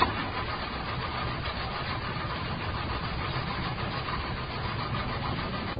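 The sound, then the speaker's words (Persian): A car engine cranks without catching, a fault blamed on the clutch plate; a steady, even, mid-pitched churning drone that runs unbroken throughout with no voices. “داداش از صفحه کلاژشه، متوجه ای؟ آقا استارت نمیخوره.”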